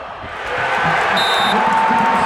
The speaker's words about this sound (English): That was the sound of the crowd reacting to a clutch defensive play in the late fourth quarter by Arizona State.